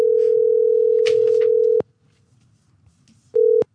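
Ringback tone of an outgoing telephone call to a café: a loud, steady, low-pitched tone held for nearly two seconds, a pause of near silence, then the start of a second short tone.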